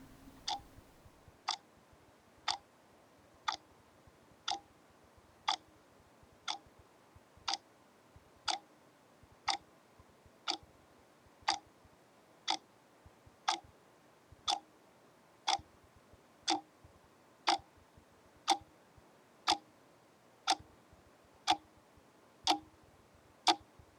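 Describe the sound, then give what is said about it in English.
A clock ticks steadily at about one beat per second, with many sharp, evenly spaced clicks against near silence. The ticks stay quiet and regular throughout, with no voices. “tick-tock of the clock.”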